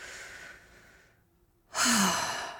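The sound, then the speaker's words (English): A deep breath in: a soft, airy breath first, a short quiet pause, then a loud, full inhalation that swells and holds. “So let's take a moment right now and let's take a deep breath.”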